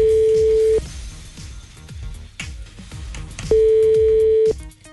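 A telephone ringback tone sounds as an outgoing call goes unanswered: two long, steady mid-pitched tones separated by a gap, playing over a music bed.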